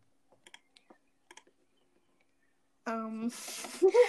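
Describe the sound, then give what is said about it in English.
Light typing on a computer keyboard: a few quick, faint key clicks in an irregular patter, then the typing stops and a person starts talking. “everybody can just hear you typing on your computer”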